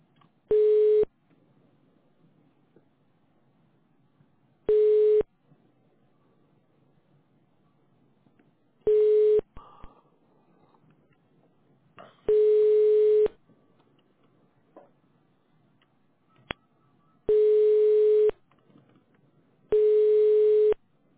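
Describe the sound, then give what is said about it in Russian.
Telephone ringback tone while a call is transferred to technical support: six steady, mid-pitched beeps, each about a second long, separated by long silent gaps with a few faint clicks between them. “Давайте, вас техническая поддержка сейчас соединю.”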